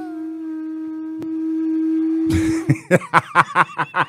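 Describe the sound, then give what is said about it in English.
A weak, sad-sounding horn blast, like a Viking horn: one steady low tone held for about two and a half seconds, then broken off by a rapid series of short, sharp bursts. “It sounds like a weak version of that Vikings horn. Yeah. He was so sad when he blew it.”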